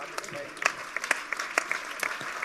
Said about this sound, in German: Applaus für diese Fundamentalkritik